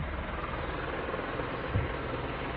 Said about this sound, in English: As you can hear, a helicopter coming through. I do live behind a freaking hospital